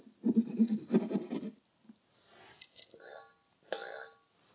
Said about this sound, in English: So I'm gonna use this longer tool to cut through them.